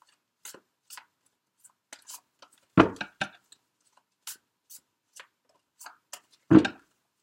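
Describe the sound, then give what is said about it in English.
A playing card from a seasonal fortune-telling deck is flipped up among light handling sounds: many soft, scattered paper clicks and snaps, with two louder slapping flips standing out, and no talking. “The Four of Winter card flipped up.”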